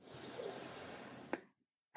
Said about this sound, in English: Another deep breath.